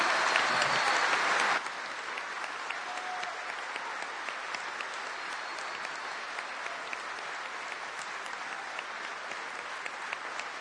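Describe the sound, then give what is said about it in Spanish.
Applause rings out in tribute to an Argentine artist. A louder burst of clapping lasts about a second and a half, then settles into steady, sustained clapping for the rest, with no voices. “Por eso un gran aplauso para Leonardo Favio.”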